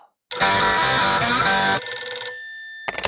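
A telephone rings to announce an incoming radio caller: a bright, loud ring lasting about two seconds that thins to a fading tone, then a short final burst.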